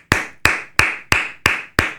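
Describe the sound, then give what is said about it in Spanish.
Six sharp hand claps in a steady, evenly spaced rhythm during a casual conversation among friends, each clap loud and crisp with a short decay and nothing else heard between them. “Eso se aplaude.”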